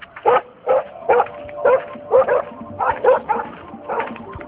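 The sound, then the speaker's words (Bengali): A pet dog that has turned violent barks near a dog house, giving many loud, gruff barks in a steady, repeated rhythm. “ওই dog হাউসটার দিকে যাচ্ছি আমি, পোষা কুকুরটা violent হয়ে গেছে, ওকে ট্র্যাঙ্কুলাইজার দাও।”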